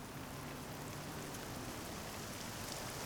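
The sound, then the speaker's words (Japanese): Steady rain falling, a dense and even hiss of drops that carries on without pause, with no voices. “あ、雨。”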